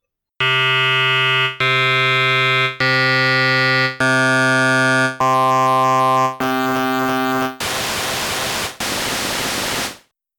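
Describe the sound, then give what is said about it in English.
A synth instrument patch plays eight sustained notes, with feedback stepping up from zero to the highest of eight levels. The clean, buzzy tones grow harsher and grittier with each step until the last notes turn into a loud hiss of noise. “Here's an example of an instrument starting at 0 and increasing in feedback.”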